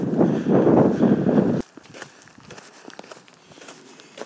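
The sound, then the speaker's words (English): Wind buffets the microphone outdoors on a walk along a reservoir bank: a loud, broad low roar for about a second and a half, which then cuts away to leave soft, scattered footsteps. “Apologies for the wind.”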